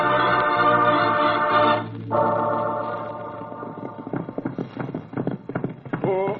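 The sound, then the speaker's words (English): Horses' hooves clip-clop as riders set off together: a sustained tonal passage gives way to a quick, irregular run of hoofbeats that grows louder and denser in the second half, with no voices. “Come, Pancho, we ride. Come, Diablo. Come, Logo, we ride now. Go now.”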